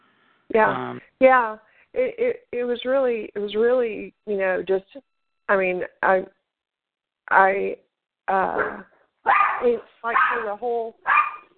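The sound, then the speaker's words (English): A pet dog barks on and off while a person keeps talking, the short barks mixed in among the speech. “Sorry, there's a bark going on here.”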